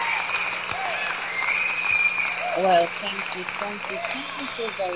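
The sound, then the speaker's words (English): An audience applauds to welcome the host of a community federation event to the mic, a dense, steady clapping that fades as a woman's voice begins speaking over it. “Let's put our hands together as she comes to the mic.”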